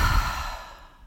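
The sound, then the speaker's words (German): A single deep breath, exhaled as one soft breathy whoosh that starts fairly loud and fades steadily over about a second, with no talk. “Atme einmal tief durch die Nase ein und kräftig durch den Mund wieder aus.”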